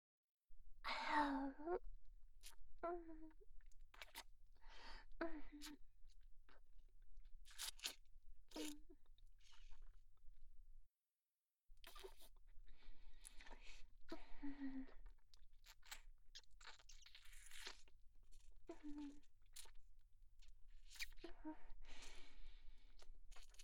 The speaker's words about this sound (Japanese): 私は下半身を丁寧に拭かせていただきます。集中するので口数が減ってしまうかもしれませんが、お許しください。